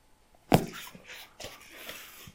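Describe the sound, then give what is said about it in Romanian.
A puppy gives one sharp, loud yelp, then a few faint, soft yips and whimpers follow in the quiet that comes after. “Sau niște căței, s-aud?”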